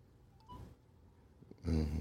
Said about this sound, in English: It's ringing.